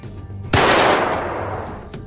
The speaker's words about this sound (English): He's been shot! No, it's just another transistor blowing in the control panel.